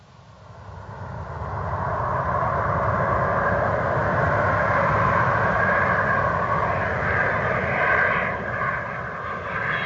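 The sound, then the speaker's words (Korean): A private jet airplane arriving on an airfield runway, its engines building over the first two seconds into a loud, steady roar with a high whining edge that holds to the end, with no voices. “비행장 활주로 락스타 로즈를 태운 전용 비행기가 도착했습니다.”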